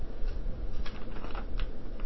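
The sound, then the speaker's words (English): A writing instrument drawing a line along the edge of paper: faint, continuous dry scratching with a few soft ticks, and no voices. “you take your writing instrument and you draw that line right on the edge”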